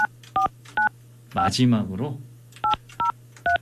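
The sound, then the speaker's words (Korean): Telephone dialing tones placing a call to a radio show listener: several short, evenly pitched DTMF beeps in quick succession, interrupted midway by a brief burst of voice before a few more beeps follow. “마지막 연결이 될 것 같습니다. 시간이 많지는 않지만 자 신호 갑니다.”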